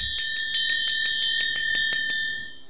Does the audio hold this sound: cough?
no